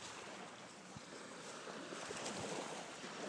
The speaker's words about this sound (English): But don't the waves sound so relaxing?